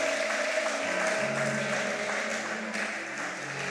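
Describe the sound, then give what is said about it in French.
A church audience applauding in praise, with a dense, continuous patter of many hands clapping that holds at an even level from start to finish. “Est-ce que tu peux acclamer très bien le Seigneur? Acclame bien Jésus.”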